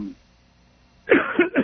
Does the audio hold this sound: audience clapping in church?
no